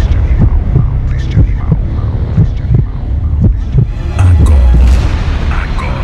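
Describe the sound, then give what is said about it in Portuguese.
A deep, throbbing heartbeat sound effect introduces the launch show of a buffalo-themed sound system in Pará. Repeated low, booming thumps pulse over a steady hum, and a heavier sustained rumble swells near the end. “Sinta a poderosa batida do coração deste animal.”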